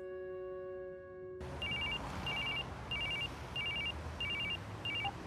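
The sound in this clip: A telephone rings for an incoming call, six short trilling electronic bursts repeating at an even pace after a sustained steady tone cuts off, fairly faint and with no voices.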